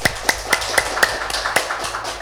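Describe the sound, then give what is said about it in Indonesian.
Claps for performers after a fashion show of sasirangan fabric, sounding as a steady, evenly spaced series of sharp, loud hand claps in a regular beat, with no voices. “Mungkin kita beri tepuk tangan yang meriah dong buat mereka.”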